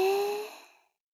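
Someone exhales slowly during a breathing exercise, one soft sighing breath with a faint voiced tone that starts at full strength and fades steadily away within about a second.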